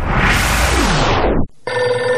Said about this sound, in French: le téléphone qui sonne, à un moment donné, j'appelle.